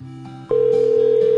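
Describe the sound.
A telephone dial tone after the caller hung up: a steady, unbroken electronic tone cuts in after a brief lower hum and holds to the end.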